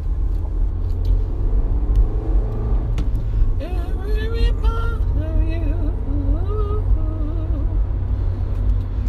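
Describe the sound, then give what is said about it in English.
A car drives along with a steady, heavy low engine and road rumble throughout. A voice starts talking over the drone partway through. “Here I am driving again, and I feel motivated to talk because I'm driving”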